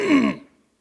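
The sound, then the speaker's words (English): A man clears his throat once, a short, husky, voiced rasp that fades quickly into silence. “Clear the throat.”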